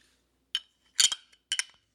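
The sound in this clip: A can of IPA beer being cracked open gives three short, sharp metallic clicks and snaps, evenly spaced and crisp against otherwise near-silence.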